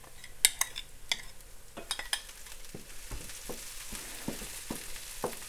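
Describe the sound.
A loose, paste-like onion mixture frying in a pan, with a soft, steady sizzle running throughout and many sharp scraping clicks and taps as a utensil stirs it.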